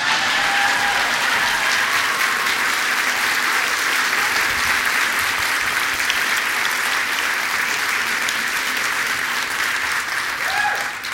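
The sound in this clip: Audience applause welcoming a speaker onstage at a talk event at the JCCSF: dense, steady clapping that stays loud and even for about eleven seconds, with no voices standing out.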